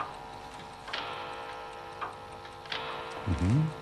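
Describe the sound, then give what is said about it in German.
A grandfather clock ticks after being set back to six o'clock, with a few soft, sparse ticks at uneven spacing over a faint hiss and a short scraping sound near the end. “Moment, die drehe ich einfach zurück auf 6. So, die Standuhr auch auf 6.”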